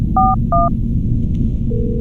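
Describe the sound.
Telephone keypad dialing tones: two short, clear two-pitch beeps, then a steady lower tone starting near the end, loud over a low rumbling background.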